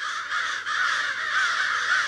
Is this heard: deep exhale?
no